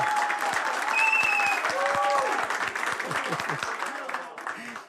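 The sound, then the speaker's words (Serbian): Tavern audience applause, a dense and steady clatter of many hands that holds loud for most of the time and thins out at the very end, with voices mixed in. “Ja ću zamoliti kafanu još jedan veliki aplauz.”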